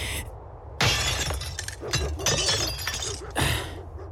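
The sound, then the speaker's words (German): A glass window pane smashed in, with a loud shattering crash followed by a few more bursts of breaking, clinking glass that ring out bright and harsh. “Jetzt geh mal aus dem Weg. Ich schlag die Scheibe ein.”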